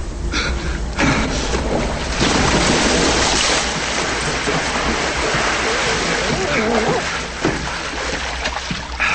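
Loud, steady splashing and churning water as a person jumps in and swims through a flooded tunnel. The watery rush fills the whole clip with little pause.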